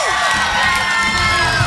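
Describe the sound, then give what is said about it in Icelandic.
An audience cheers a guest onto the stage at an evening show: a loud, dense, continuous roar of crowd shouts and whoops with no pause. “Gefa hann gott klapp!”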